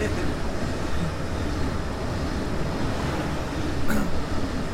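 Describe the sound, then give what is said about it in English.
A short train passing, heard as a steady, dense rumble and rush that holds level throughout and swells slightly near the end. “Some of the trains are longer than others. Oh, that was a short one.”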